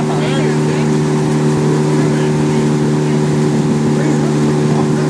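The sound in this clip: Pontoon boat motor running on a high-water lake, a loud, steady engine drone with no distinct start, while people's voices carry over it.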